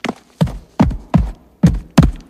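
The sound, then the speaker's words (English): Hoofbeats of a single wildebeest galloping away from behind a boulder in a dusty gorge: six heavy, evenly spaced thuds in a steady driving rhythm, loud and with no voices. “A single wildebeest runs out from behind a boulder and gallops away.”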